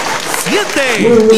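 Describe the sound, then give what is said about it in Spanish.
Applause from an audience for young students at a school gathering, a steady clapping wash running under a man's voice throughout. “Un aplauso para ustedes, chicos. Un aplauso, jóvenes, ¿eh?”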